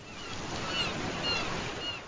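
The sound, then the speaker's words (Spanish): Ocean waves lap against a jetty in a sheltered cove where a small fleet of boats rocks at moorings, a soft, steady wash of water and surf heard alone at low volume without distinct breaks. “Una pequeña flotilla de naves se mecía suavemente con el vaivén de las olas.”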